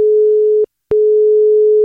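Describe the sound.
Telephone line tone as a call is placed: a steady, loud, single-pitch tone that cuts out briefly and then resumes unchanged, with no voices.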